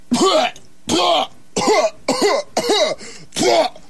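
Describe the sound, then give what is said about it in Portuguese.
Deliberate coughing to demonstrate a tuberculosis cough: six separate harsh coughs in an even rhythm, loud and alone, each short burst followed by a brief silent gap. “não tô com tuberculose, não. Só para fazer uma demonstração, né? Tuberculose é excesso de tosse.”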